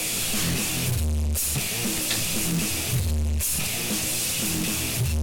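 Heavily compressed CD master of a loud band track: dense, distorted music with an almost perfectly flat loudness and steady low-end pounding, leaving no quiet gaps between hits.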